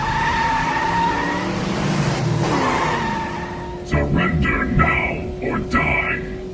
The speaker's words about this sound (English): I'm going to need you to turn the tires as hard as you can, okay? On the mark of three. Three. Two. One. Turn, turn, turn!